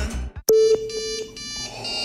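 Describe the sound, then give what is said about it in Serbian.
An incoming video call ringtone plays alone as a bright electronic chime: one sustained tone followed by a few short repeating pulses. “Zdravo, Luk. Otkud ti da me zoveš na video poziv?”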